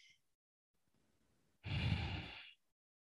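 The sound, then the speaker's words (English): A faint, airy breath drawn in slowly, then a loud, full sigh as the lungs empty in one long, steady breath out lasting about a second before silence. “Breathe in. I let my lungs fill up with air and then I slowly breathe it out.”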